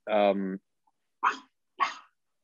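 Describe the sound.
A dog barks three times: a longer, more tonal first bark followed after a pause by two short, sharp barks, loud and clear with no talk over them.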